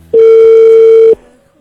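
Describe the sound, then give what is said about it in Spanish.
A single steady telephone tone sounds while a call is being placed: one loud, even, mid-pitched beep held for about a second, then cut off, with nothing else around it. “A ver, le estamos marcando a Adriana en esta mañana.”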